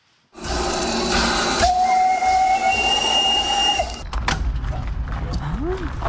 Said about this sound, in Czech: Vzácné historické lokomotivy z Česka i ze zahraničí dorazily na 7. ročník festivalu parních lokomotiv v Benešově.